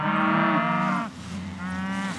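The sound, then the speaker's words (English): Cattle mooing as a herd is moved on a ranch in Helmville, Montana: two long, deep moos in quick succession, the second a little softer than the first, with no talk. “It's time to move cattle, so she coils up an electric fence on a spool and whistles to encourage the herd to move through.”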